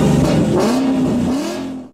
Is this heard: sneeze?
no